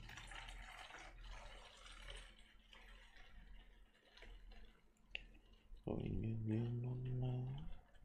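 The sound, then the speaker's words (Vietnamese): Water is poured into a glass, faint and soft, with low noisy trickling at first and a clearer, steadier pour near the end. “Đợi mình chút, mình rót chút nước nữa.”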